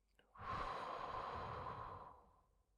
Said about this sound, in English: Take another breath in and another breath out.